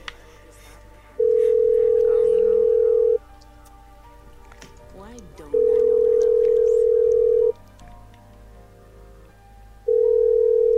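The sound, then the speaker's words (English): A telephone line ringing on another machine: three long, steady single-pitch ring tones repeat at an even interval, with quiet background noise in the gaps between them. “Let's try the other machine. It's ringing.”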